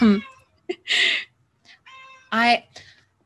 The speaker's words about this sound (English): Sorry if you can hear my cat in the background. She's mad at me for being away yesterday.